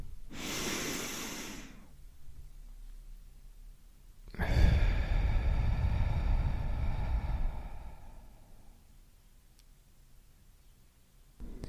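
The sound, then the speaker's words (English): A person takes a deep breath in and out: a short, airy inhale, a pause, then a longer, heavier breath out with a soft sighing tone that fades slowly. “let's take a deep breath in and a deep breath out.”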